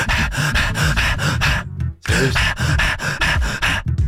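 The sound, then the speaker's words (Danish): A voice imitates a German shepherd panting hard after running: quick, rhythmic breathy huffs in a steady stream, with a short pause midway before the panting resumes. “Men den lyd, en schæferhund laver, når den har løbet rigtig stærkt.”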